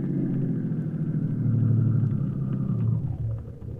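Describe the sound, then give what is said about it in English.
A car engine rumbling steadily as it drives into a lot, a low continuous drone that holds level and then fades off at the end, no voices. “Then I got an idea. I drove right on into the lot.”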